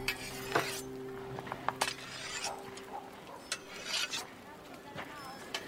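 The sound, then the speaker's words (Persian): A cleaver is sharpened with repeated rasping scrapes and light metallic clinks in uneven strokes, over a steady low hum. “بابا باز ساتورش رو تیز میکنه.”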